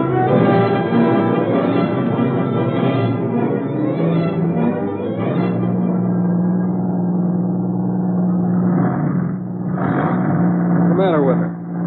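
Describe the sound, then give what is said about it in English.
A car engine running poorly drones steadily in a low, harmonic-rich hum, its tone shifting midway and wavering unevenly toward the end. “Sounds like we might have blew a gasket or something.”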